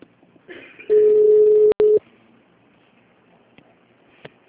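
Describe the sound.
A telephone signal sounds: a steady, mid-pitched electronic tone holds for about a second, is cut by a sharp click, and briefly resumes before stopping, with a few faint clicks afterward.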